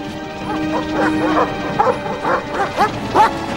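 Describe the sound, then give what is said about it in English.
Guard dogs barking at the closed doors of a barn: a quick run of many sharp barks and yips over a steady tonal hum, loud and without talk. “where the guard dogs bark at the closed doors”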